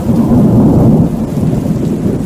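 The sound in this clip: Heavy rain falls on a lawn with two leafy trees, a loud, steady roaring downpour with a deep low rumble like thunder. It is strongest in the first half, then eases slightly.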